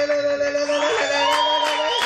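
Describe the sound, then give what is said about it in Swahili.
Clapping mixes with high, trilling ululation at a gathering, the sustained pitched cries held steady over a dense patter of hands at a moderate level. “Makofi na vigelegele.”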